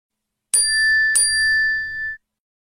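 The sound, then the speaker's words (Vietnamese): A WeChat new-message notification chimes on a phone: two bright, ringing dings about half a second apart, the tone sustaining briefly before cutting off cleanly, heard alone against silence. “WeChat trên điện thoại của Mã Lệ thông báo có tin nhắn mới chưa đọc.”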